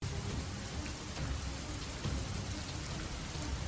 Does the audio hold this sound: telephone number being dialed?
no

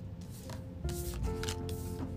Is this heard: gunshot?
no

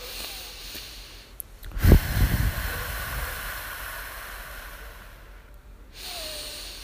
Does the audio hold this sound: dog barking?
no

